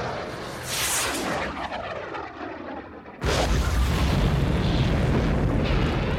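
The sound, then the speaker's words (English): Ground-to-air missiles launching with explosions in a sci-fi battle against attacking fighters: a rushing, roaring whoosh, then a sudden loud blast onset that swells into a sustained heavy rumble. “I'm arming the ground-to-air missiles. This wave of TIEs is too close to get along. Target that hovercraft. The second wave of TIEs is in the distance. Copy that. Missiles away!”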